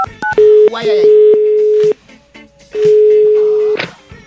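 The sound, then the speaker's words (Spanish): Telephone line tones while calling an institute: a few quick dial beeps, then a steady mid-pitched tone in two long stretches separated by a short gap, with brief noisy bursts between them. “Es hora de marcarle al Instituto Milford para que termine su investigación.”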